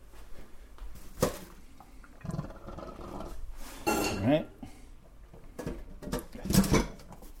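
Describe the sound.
Cooked charcoal noodles drained into a colander: irregular bursts of splashing, pattering water and drips, mixed with light metallic clatter, loud at moments and quieter between.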